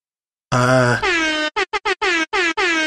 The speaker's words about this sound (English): did you hear that? No. That was the air horns.